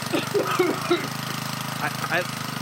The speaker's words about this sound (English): I have a feeling some new listeners are listening today, and I'd like to let them know what that sound was. It's the random topic generator.